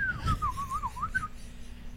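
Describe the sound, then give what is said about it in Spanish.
A wavering whistled tone from a small creature moving its tiny mouth slides down and up for about a second, then a short higher chirp follows. A low rumbling sits underneath. “tiene el rotito y lo mueve así, pues él está silbando”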